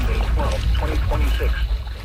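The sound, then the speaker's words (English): Paddle strokes pull a small boat through water during the Race to Alaska, a boat race from Port Townsend, Washington. Splashing and a steady water rush sit under people talking. “You're just going to keep on paddling. Yeah, keep on paddling.”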